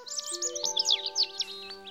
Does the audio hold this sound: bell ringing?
no

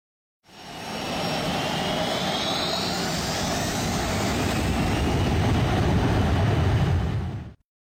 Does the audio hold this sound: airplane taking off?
yes

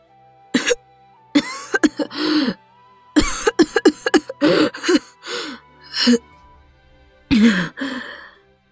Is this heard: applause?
no

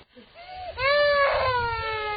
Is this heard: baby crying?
yes

